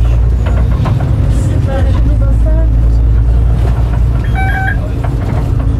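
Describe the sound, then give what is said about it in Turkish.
A bus pulling away, its engine producing a loud, steady low rumble throughout, with voices in the background. “Evet, şu an itibariyle hareket etti otobüsümüz.”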